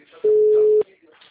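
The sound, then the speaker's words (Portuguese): A single steady electronic telephone tone as a call is placed to a client: one loud, even beep lasting about half a second, with faint background noise on either side. “Só vou ligar pro cliente aqui.”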